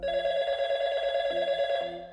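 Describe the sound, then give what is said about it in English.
A telephone keeps ringing in one continuous, warbling electronic tone at moderate loudness. It holds steady for about two seconds and tapers slightly at the end, with no voices. “The phone kept ringing.”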